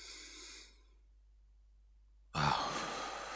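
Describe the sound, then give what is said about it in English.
A deep breath drawn in during a guided meditation: after a faint airy breath and a short silence, a loud, breathy rush of air starts abruptly and holds steady to the end. “All right, breathe in.”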